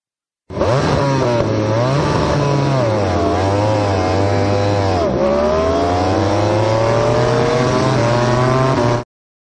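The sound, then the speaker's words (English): A racing engine at a race start, revving and shutting the throttle repeatedly: a loud, buzzy tone whose pitch climbs and drops several times in uneven swells, heard alone without voices. “What you hear there is him revving, shutting the throttle, revving again, shutting the throttle, getting on and off the gas, and it's much, much messier.”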